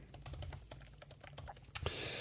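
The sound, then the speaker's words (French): Typing on a computer keyboard, a quick, irregular run of many soft key clicks, faint overall, ending with a slightly louder clack. “Allez, alors je tape.”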